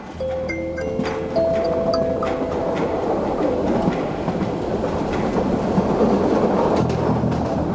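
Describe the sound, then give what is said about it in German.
A passenger train bound for Flensburg rolls along the rails with a steady, dense rumble and rhythmic clacking, and a few sustained hum-like tones sound near the start. “Dass ich mich 2 Tage später mit einer Fahrkarte nach Flensburg im Zug wiederfand, mag als seltsames Ergebnis erscheinen.”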